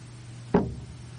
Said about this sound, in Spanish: abre la partitura, la pone sobre el atril, la prepara todo, cierra, atención, cierra la tapa del piano